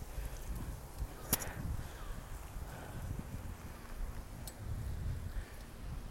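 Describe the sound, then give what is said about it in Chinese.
Wind blowing while riding a bicycle under trees makes a soft, steady low rumble and buffeting against the microphone, broken by a couple of brief faint clicks. “哦不，风一吹来，在树底下骑车就会被雨淋到。”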